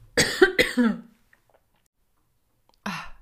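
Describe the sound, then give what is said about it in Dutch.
Coughing fit from a person with a dry throat: three quick, rough coughs in a burst, a short silence, then one more cough, moderately loud with nothing else around them. “Ik kreeg even een hoesbui.”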